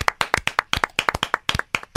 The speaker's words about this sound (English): I'm going to clap. I'm giving you like a million claps.